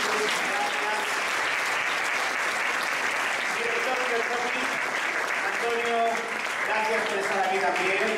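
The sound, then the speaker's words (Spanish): Loud, sustained applause from an audience honoring a panel of experts at a food and wellbeing event, a dense, steady clatter of clapping for the whole stretch with a few voices faintly mixed in. “Un fuertísimo aplauso para este maravilloso panel de expertos.”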